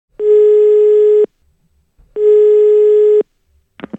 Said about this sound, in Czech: Jdu volat.